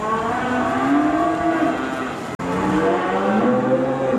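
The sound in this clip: Cattle mooing in a new open barn on a farm in Virginia: long, low, drawn-out lowing that carries steadily through the whole stretch, loud and clear with almost no talk, broken only by a brief dropout partway through.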